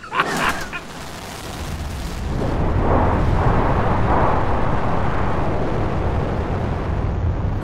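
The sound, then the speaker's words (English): A rocket ship launches from Earth: a deep, broad roar that swells after a couple of seconds and then holds steady and loud until the end. “This rocket ship is breaking away from the Earth with the speed of light, right into the path of the new planet.”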